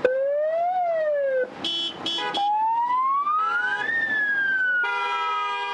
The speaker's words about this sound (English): And the sirens? Those aren't police cars. Those are just really, really annoying drivers.